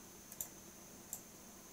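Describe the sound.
Computer mouse clicks on a picture: a couple of sharp, faint ticks less than a second apart over a low, steady hiss.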